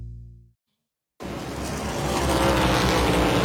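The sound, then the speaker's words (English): Race cars in the Cookout 400 at Richmond Raceway: a loud, continuous engine roar that cuts in after a brief tone and a short silence, then builds slightly and holds. “15 laps to go in the Cookout 400 here at Richmond Raceway. Joey Logano cannot shake Chase Briscoe in this ongoing race for the win.”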